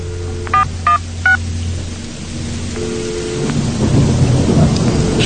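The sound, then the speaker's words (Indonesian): Three short telephone dialing beeps sound one after another as a number is keyed in, over a steady low rumble of thunder and rain that swells louder toward the end. “Akhirnya ku teleponi ibu untuk bertanya.”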